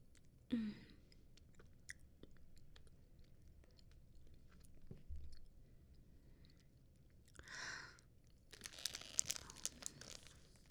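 Soft chewing and biting while eating a meal, faint and irregular, with a few brief crunchy bursts and a busier stretch of chewing near the end.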